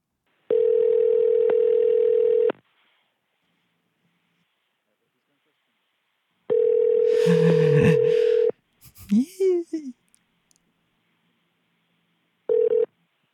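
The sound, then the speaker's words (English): A telephone ringback tone sounds as a call is placed to a government office after dialing: a steady low buzzing tone in three bursts, two long and one cut short, with a brief voice between the second and third. “Dialing now.”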